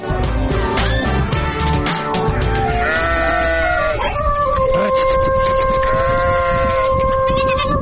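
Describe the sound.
Sheep and goats kept as livestock bleat, with several loud, wavering calls overlapping throughout and some sustained steady tones.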